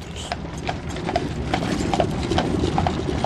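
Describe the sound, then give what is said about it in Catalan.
Steady clip-clop of hooves from a pair of old mules pulling a rickety cart, with mechanical rattling and creaking running underneath. The sound is continuous and fairly loud. “S'han venut el poc que tenien i s'han comprat un carro atrotinat que tiben un parell de mules velles.”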